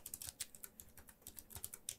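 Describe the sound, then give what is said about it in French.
Rapid typing on a computer keyboard: many quick, faint keystroke clicks in an irregular stream, with no talk. “Attendez. Je tape ça et je suis à vous.”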